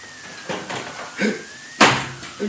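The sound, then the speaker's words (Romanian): A window is opened with a few soft rubbing and creaking movements, followed by a louder clunk near the end. “Să deschid fereastra.”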